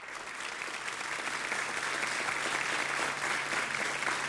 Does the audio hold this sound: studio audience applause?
yes